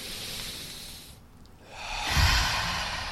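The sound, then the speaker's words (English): Deep breaths drawn in through the nose during a guided calming exercise: long, airy rushes with a brief lull between them, the later breath fuller and louder. “Going ahead and taking two deep breaths in through the nose.”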